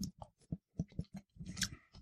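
Faint chewing while tasting a vegan breakfast that includes a turmeric-coloured vegan scrambled egg: many soft, rhythmic crunching bites in quick succession, with short pauses between them.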